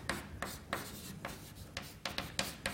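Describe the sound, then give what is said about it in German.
Faint writing on a board during a university physics lecture: many quick, scratchy strokes in an uneven rhythm with short gaps between them, heard alone without talk. “Ich schreibe es einfach mal hin.”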